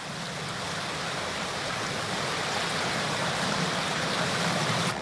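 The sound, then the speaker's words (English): Tide surging into deep coastal inlets along the jagged Kimberley coastline, a continuous powerful roar of rushing water that swells slightly toward the end, with no voices. “It has a jagged coastline with many inlets that reach deep inland. The tide sweeps into them with amazing speed and ferocity.”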